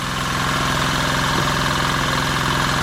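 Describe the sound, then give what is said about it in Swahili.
Steady engine running at a car body repair workshop on First Street in Buyenzi, Bujumbura, a continuous low idling rumble with a fast, even pulsing throb and no voices. “Nimefika hapa katika kituo cha kunyooshea gari barabara ya kwanza mtaani Buyenzi”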